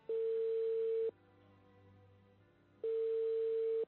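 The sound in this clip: Telephone ringing tone on an outgoing call: two steady, flat tones at one pitch, each about a second long, separated by a quiet gap with faint line hum.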